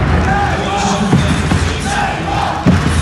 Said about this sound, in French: Et c'est parti pour 4 cartons de 10 minutes, tout ça chante très fort. Les supporters manceaux, les félins vont chanter non-stop.